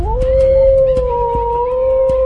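A wolf howls in one long, loud, steady note held throughout, with softer overtones above it and a few faint clicks underneath, no talk.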